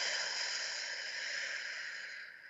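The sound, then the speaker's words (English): A deep breath drawn in through the nose and let out through the mouth during a guided relaxation exercise: a steady, airy rush of breath lasting a couple of seconds, fairly even, then softening slightly at the end. “let's take a breath and connect in through the nose, all the way to your toes, and then out through your mouth,”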